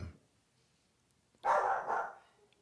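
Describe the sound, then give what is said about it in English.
A protective dog barks at someone messing about outside the front, a brief, muffled burst of barking after a quiet stretch that dies away within about a second. “My dog knows that somebody's outside in the front messing with him. Yeah, he doesn't like that.”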